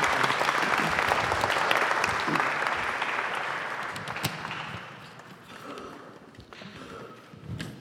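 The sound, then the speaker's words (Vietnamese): Applause from an audience at a talk, a dense, steady patter of many hands clapping that thins out and grows quieter through the second half. “Cho bạn một tràng pháo tay.”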